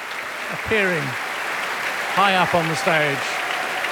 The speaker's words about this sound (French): Et un tonnerre d'applaudissements pour le concertmeister, le violon solo, Benjamin Bauman, violon solo de cet orchestre du Metropolitan Opera de New York.